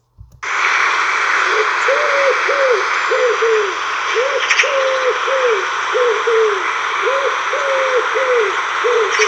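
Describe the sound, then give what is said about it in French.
A wood pigeon sings a rhythmic series of soft, hooting coos, repeating the same short phrase many times at an even pace over a steady hissing background. “Et tout de suite, le chant du pigeon ramier.”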